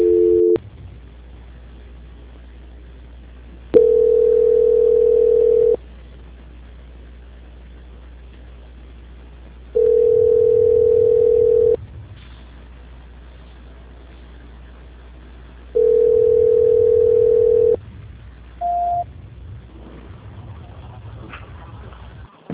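Telephone call-transfer tone: three long, steady mid-pitched tones about two seconds each, repeating every six seconds over a low hum, followed by one short, higher beep.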